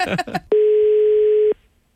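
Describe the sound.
Telephone tone heard while calling someone back: a brief burst of voice, then a steady, clear, mid-pitched tone lasting about one second that cuts off abruptly into near silence.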